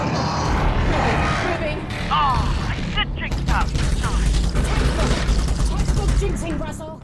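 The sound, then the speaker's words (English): A Strider attacks in the video game Half-Life: Alyx, a loud and continuous mix of mechanical clattering, grinding and deep rumbling that stays dense throughout. “Alyx! A Strider! Look out! It's alive!”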